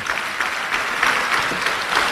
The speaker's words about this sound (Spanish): Un aplauso al Señor.